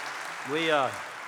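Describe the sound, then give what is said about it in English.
A live audience applauds for the band's late guitarist Charles Sawtell: steady, hissing crowd clapping continues throughout while a voice rises briefly over it. “let's give him a hand”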